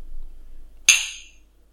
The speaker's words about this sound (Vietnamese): bọn em đang uống bằng hai cái ly nước mà anh tặng